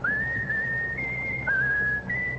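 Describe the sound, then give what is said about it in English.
A tune is whistled, with sustained clear notes that step up and down in pitch, alone and steady. “Whistle your favorite tune. Whistle.”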